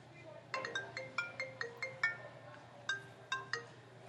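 A telephone rings with an incoming call to a contest line. The bright electronic ringtone chimes in a quick run of tones, pauses briefly, then returns with a shorter burst.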